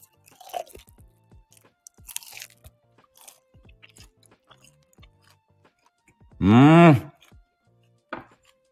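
Crunchy bites and chewing of a small piece of food, weighing 28 g and smaller than the usual kind, heard as scattered soft crackles and a few sharper crunches. A brief, loud voiced sound rises near the end.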